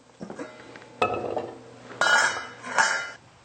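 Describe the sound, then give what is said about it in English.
Chopped food pieces dropped into a cooking pot used for steaming, making a few separate clattering clinks spaced about a second apart, each sharp at the start and quickly fading, with no talk. “And then we're going to put that into the pot.”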